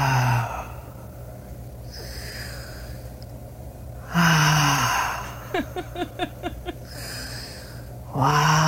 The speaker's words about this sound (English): You hear deep breaths.